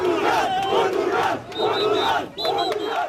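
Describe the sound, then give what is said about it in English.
Football crowd chanting and roaring at Portugal's 2-1 win over Croatia in Toronto, a dense, loud wall of many voices that swells in waves with sung, tonal chants rising above the steady roar. “Some sounds there from the stunning 2-1 win for Portugal over Croatia.”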